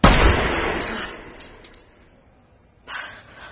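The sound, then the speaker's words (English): A single loud gunshot from a fired weapon, a sharp blast whose rumbling tail fades over about two seconds, followed by a weaker, shorter burst near the end. “So slowly and carefully, raise your weapon, make your finger work independently of your fist and arm, and gently and indifferently squeeze.”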